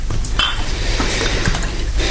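Whisky poured into a glass without ice, a steady, fairly loud stream of liquid with a few light clinks of glassware mixed in, and no voices.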